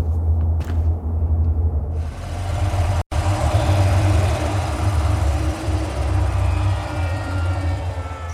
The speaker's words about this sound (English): What's that? A hover bike.